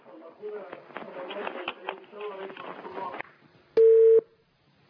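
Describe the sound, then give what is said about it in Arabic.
A caller's muffled voice comes over a telephone line, then the call cuts off and a single loud, steady busy-tone beep sounds briefly before silence. “شكل التليفون قطع ولا ايه؟”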